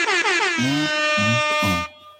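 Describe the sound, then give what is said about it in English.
A loud air horn sound effect blares for about two seconds: a sustained, brassy, buzzing tone with three short pulsing bursts underneath, then an abrupt cutoff. “Air horns. Where are my air horns?”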